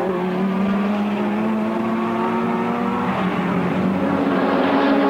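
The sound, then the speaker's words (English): Racing cars roar on a track, including a Ferrari number four and a Lotus number seven, in a steady, loud engine drone with strong harmonic tones holding fairly level for several seconds. No voices are heard. “And Phil Hill in the Ferrari number four is just holding Stirling Moss in Lotus number seven.”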